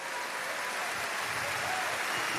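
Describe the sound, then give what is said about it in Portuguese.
Applause from an audience at a church service, a steady wash of many clapping hands that holds at an even level through the whole short stretch. “Você pode dar uma salva de palmas pro Beni? Ele veio no culto hoje.”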